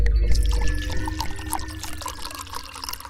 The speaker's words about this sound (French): Alors, on va commencer avec la première bouteille, à l'aveugle. Déjà, ça pétille.